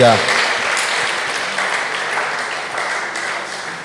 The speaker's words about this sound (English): Let's give a hand clap as she comes.